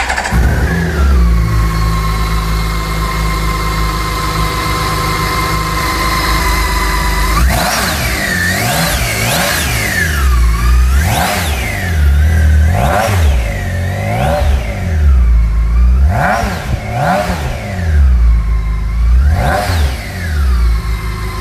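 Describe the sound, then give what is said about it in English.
A six-cylinder K1600 motorcycle engine idles smoothly with a steady low hum, then is revved in many quick throttle blips. Each blip swoops up and back down in pitch, loud and with no talk. “How smooth is that? How many cylinders do you need for such an abundance of power? Does it matter? Ah, the joy of six and the thrill of the K1600.”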